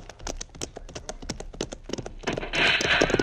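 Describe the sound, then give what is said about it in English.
Horses' hooves clatter as riders set off: many quick, rhythmic hoofbeats in a brisk clip-clop that grows denser and slightly louder toward the end. “Pancho and I will ride up as close to that entrance as we can get. Mm-hmm. It may be that they have posted no guard. Come on, Diablo, get up. Come on, Logo, come now.”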